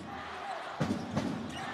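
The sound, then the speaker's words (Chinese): Basketball dribbled up the court during a game: a few faint thudding bounces rise out of a steady arena hum, with a voice talking over them. “史瑞拿到球， 自己带球推进到前场。”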